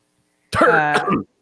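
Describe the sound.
A single short, voiced throat clearing by a man, loud and alone for about a second.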